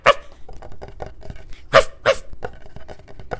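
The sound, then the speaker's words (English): A human voice imitates a dog barking, with a few loud, sharp barks scattered among many softer yips and short bursts, uneven in rhythm, with no other talk. “I'm standing in the middle of the hallway listening, and the dog's going,”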